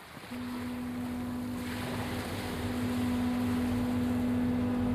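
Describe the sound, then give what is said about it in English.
A barge makes the crossing from Omokoroa to Matakana Island, its engine laying down a steady drone with a constant low hum over a wash of water that grows slightly louder. “Kaumatua Enokart Rolleston lives on Matakana Island, so I take the 25-minute barge ride from Omokoroa to go and visit him.”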